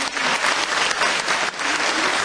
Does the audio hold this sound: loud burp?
no